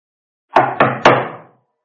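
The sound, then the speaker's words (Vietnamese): Loud knocking on a door: three heavy, sharp raps in quick succession, each with a brief ringing decay, then silence. “Ngoài cửa chợt có tiếng gõ cửa mạnh vang dội vào trong nhà.”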